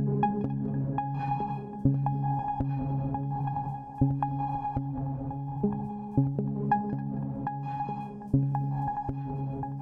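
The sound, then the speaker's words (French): A Mofo synthesizer plays a soft, low bass line of repeated notes through delay and reverb pedals, each note trailing into echoing tails that build a steady, hazy ambience. “En l'occurrence, c'est le son du synthétiseur, le Mofo, qui fait une petite basse que j'ai mis tout de suite dans un delay et une reverb, qui crée une espèce de petite ambiance.”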